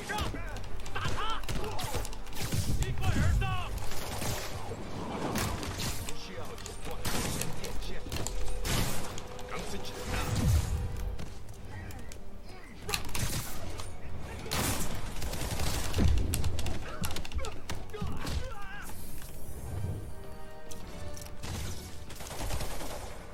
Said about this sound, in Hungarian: Ez jó volt. Felrobbantotta saját magát a szerencsétlen.